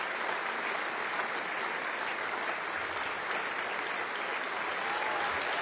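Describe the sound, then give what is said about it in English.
Sustained audience applause at an opera curtain call as a dancer takes her bow. The clapping is even and dense, forming a smooth wash of sound that stays level throughout. “And those cheers for someone we didn't hear, but who made their presence felt, the dancer Elena Thomas as the Persian slave in the Oriental scene.”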